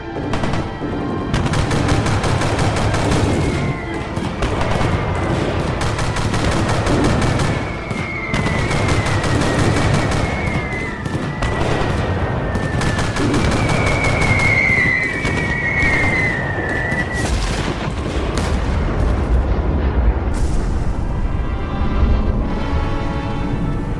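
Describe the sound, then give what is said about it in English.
Sustained gunfire as several shooters open fire on a big incoming bomb: dense, rapid volleys crackling continuously at a loud steady level, with thin whistling tones threading through the middle of the barrage. “We can't let it get any closer. Everyone, open fire immediately.”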